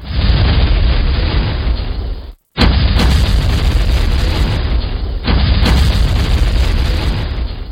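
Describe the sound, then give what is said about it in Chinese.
Explosions ring out as carts loaded with fire cannons blow up, making a loud, continuous roar of booming blasts. The din cuts out briefly near the start, then rumbles on to the end. “黑车都轰轰轰地炸开了，原来黑车入面装满火炮”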